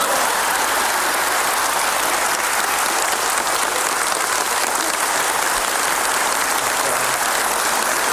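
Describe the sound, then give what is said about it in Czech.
Audience applause rolls on at an even, dense roar of many clapping hands. It stays loud and steady from start to finish, with no voices rising above it. “Potlesk.”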